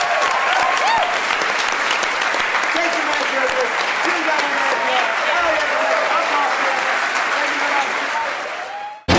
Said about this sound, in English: Well, thank you guys so much for coming. You were a great audience. Give yourselves a hand.